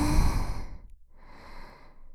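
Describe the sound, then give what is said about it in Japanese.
A deep breath drawn in during a guided breathing exercise: a soft, airy rush of breath that fades out, pauses briefly, then returns as a gentler stretch of breathy noise. “はい、深呼吸してください。吸って”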